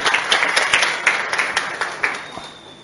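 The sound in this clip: An audience applauds to encourage a speaker, with a dense, even burst of clapping that holds steady and then gradually thins and fades toward the end.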